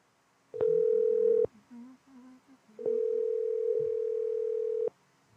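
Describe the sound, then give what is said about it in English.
Telephone ringback tone while dialing a call to a store, two long steady mid-pitched tones, the second noticeably longer than the first, with faint low sounds in the gap between them. “Dialing now.”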